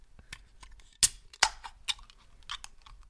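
A half-litre can of Japanese apple Fanta is opened with two sharp cracks from the tab, amid a few faint handling clicks, all fairly quiet.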